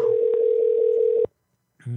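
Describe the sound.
Steady low telephone dial tone heard while a call is being placed, held unbroken for just over a second before cutting off abruptly into silence.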